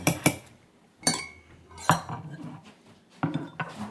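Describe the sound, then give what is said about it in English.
Drinking glasses clink as they are fetched for cocktails, a few sharp, bright chinks and knocks at irregular intervals, fairly faint and with no talk. “All right, where are those glasses? I'm getting them,”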